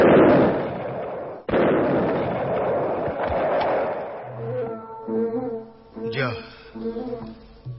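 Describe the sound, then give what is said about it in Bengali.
A bomb explosion bursts out as a loud, broad roar, with a second sharp blast about a second and a half later. The rumble then fades while people start talking. “নিজের বোমাতে নিজেই উড়ে গেল”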